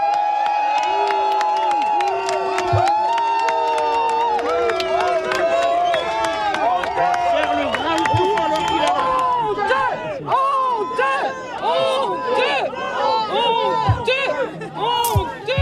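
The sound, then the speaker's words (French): A crowd of a few dozen residents in Gironde greets a government minister after wildfires destroyed nearly 200 homes: many loud, overlapping raised voices and shouts, continuous and agitated throughout. “Je vous propose d'écouter l'accueil justement réservé par les quelques dizaines d'habitants du Porche présents auprès du ministre ce matin.”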